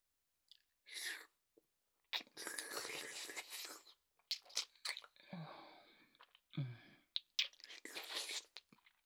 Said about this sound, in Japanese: それじゃあ今度は吸うだけじゃなくて舐めてみようか。